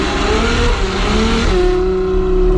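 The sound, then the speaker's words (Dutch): A Ferrari sports car races along the Haagse Veer street, its engine roaring loudly with a climbing pitch that shifts midway, then settles into a steady, sustained drone with no voices. “Dus als je zo met je Ferrari over het Haagse Veer scheurt”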